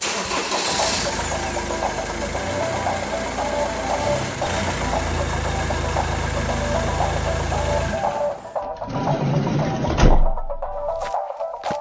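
The engine of a big red van starts and settles into a loud, steady idle, a low rumble with a regular ticking beat running throughout that shifts briefly in tone and surges near the end, with no voices.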